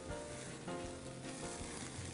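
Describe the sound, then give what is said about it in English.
Lamb sizzles on a grill after about 20 minutes of cooking per side, a quiet, continuous crackling hiss with slight swells in intensity. “this lamb has been cooking for roughly 20 minutes per side. I am going to flip it.”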